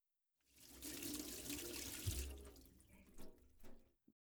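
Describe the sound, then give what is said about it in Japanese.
Hands are washed under a running tap. A steady rush of water rises and holds for about three seconds, then fades and breaks up into lighter splashes before stopping, followed by a faint short click. “じゃあ続きは、手を洗ってからね。”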